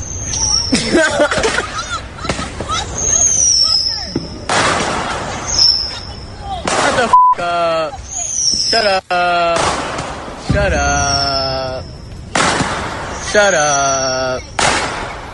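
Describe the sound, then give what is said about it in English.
Firecrackers and bottle rockets going off inside a cab: many sharp, loud bangs in irregular bursts, mixed with excited shouting voices throughout. “That's the sound of a so-called prank over the 4th of July weekend. Two D.C. teens setting off firecrackers in a cab and shooting bottle rockets at a”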